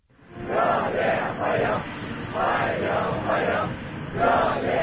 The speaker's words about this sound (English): Young people dressed in blue shirts and white trousers chanting and waving to welcome the Russian leader